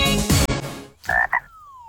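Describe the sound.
Frog croaking, with a short noisy burst followed by two brief, throaty croaks and then a thin fading tone, heard alone without any talk.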